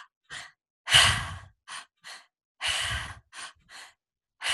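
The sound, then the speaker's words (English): Breathing demonstrated in a triactive pattern, drawn in through the stomach, up through the chest and out through the mouth: a series of short breathy puffs broken by two longer, louder whooshing breaths, with no talk. “So what it is you breathe in through your stomach, up through your chest, and out through your mouth.”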